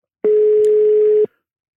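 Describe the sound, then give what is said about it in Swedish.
A telephone ringback tone as an outgoing call connects, a single steady mid-pitched beep lasting about a second, loud and alone, then silence. “Jag tänkte slå en signal här nu till Patrik Karlsson Lagemyr.”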